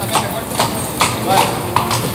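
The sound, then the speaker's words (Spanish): Hoofbeats of a horse spinning a full 360-degree pirouette in the bullring at a mounted bullfight at the Algeciras fair: a few irregular clops under continuous talking. “girar completamente el caballo en 360 grados y marcharse. Y eso lo que ha hecho, una pirueta.”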